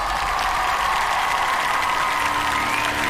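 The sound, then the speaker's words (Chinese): An audience applauds at an international singing competition, with dense, steady clapping that stays loud and even from start to finish. “掌声欢迎你们”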